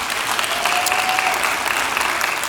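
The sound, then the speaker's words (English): An audience at a church service applauds to welcome students and their parents, with dense, even clapping that holds steady from start to finish. “And we want to welcome our T1 students and their parents that are here. Give them a hand.”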